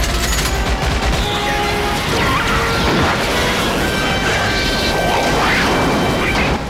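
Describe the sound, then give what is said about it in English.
A dense barrage of anti-bug artillery fire from a gun tower during a science-fiction battle against charging bugs in an audio drama. Loud crashing impacts and rapid bursts pile over a low rumble without a break. “From the gun tower, two Roughnecks batter away with anti-bug artillery.”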